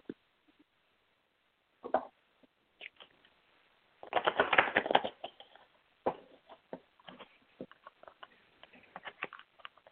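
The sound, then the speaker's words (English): Playing cards being shuffled and drawn for a romance card reading: scattered soft flicks and taps, with a denser riffling burst in the middle and sparse light clicks before and after, without any talk. “I'll draw some cards. One second.”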